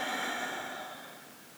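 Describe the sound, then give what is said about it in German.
A slow exhale through a slightly open mouth during a guided relaxation breathing exercise, a faint, soft breathy rush that holds steady and then gradually tapers away. “Und mit der nächsten Einatmung kannst du dann deine Schultern zu den Ohren ziehen. Und mit der Ausatmung durch den leicht geöffneten Mund ausatmen.”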